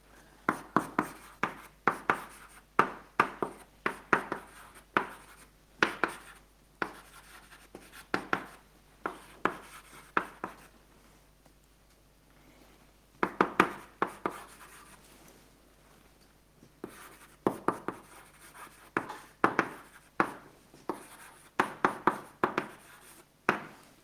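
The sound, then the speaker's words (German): Handwriting during a lecture, heard as many short scratchy pen strokes in quick bursts, grouped in clusters separated by brief pauses, with quieter gaps in the middle. “Also ich schreibe es noch mal in Worten hin, damit es auch nicht verloren geht.”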